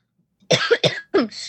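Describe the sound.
Coughs from mucus in the throat: three rough, wet bursts in quick succession, each fairly loud and alone with no talk.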